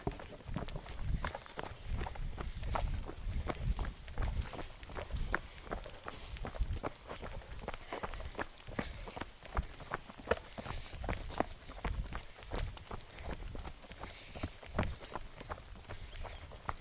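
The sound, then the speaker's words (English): Two people jog along a flat forest trail, their footsteps making a steady, quick rhythm of soft thuds that continues throughout with no talking. “So do you want to sort of like just jog it and we'll see what our feet do here?”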